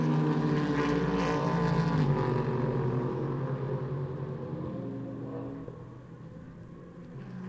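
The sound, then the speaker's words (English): A race car at a sports car race at Laguna Seca rumbles past with a deep, steady engine drone that slowly drops lower and fades. “Robbie Fawley goes out in the 96 Turner BMW. No doubting what that is rumbling past us.”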